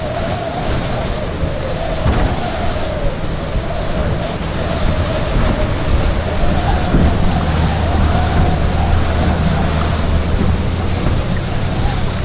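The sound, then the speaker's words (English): Wind and choppy waves around a boat heading back to the marina in strong Bura winds near Zadar, a loud, steady rushing wash of water and gusting wind with no talk. “Definitely much windier, choppier, bigger waves on our way back to the marina.”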